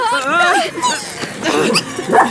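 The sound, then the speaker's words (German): Small dogs yapping and whining excitedly while tangled in their leashes, high-pitched yelps and whimpers mixed with a person talking over them. “Ihr macht mir ja meine Hunde völlig verrückt.”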